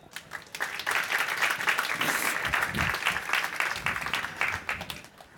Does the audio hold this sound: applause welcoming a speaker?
yes